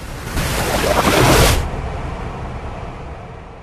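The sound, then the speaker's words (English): Storm surge water slamming against a seafront after a hurricane and shooting high into the air: a loud, broad roaring crash that swells and peaks, then drops away into a steady, lower wash of churning water. “Water slamming against a seafront and rising high into the air.”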